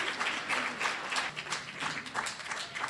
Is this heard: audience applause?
yes